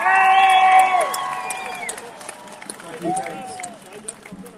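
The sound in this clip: A crowd cheers and whoops at a freedom rally in Trafalgar Square, London. A loud, high whoop opens over the cheering, which then fades, and a second shorter shout rises near the end.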